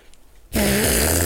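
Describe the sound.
An imitation fart made with an armpit or elbow pit: after a quiet moment, a loud, buzzy, flapping blurt bursts in and sustains to the end, its low rasping tone wavering slightly.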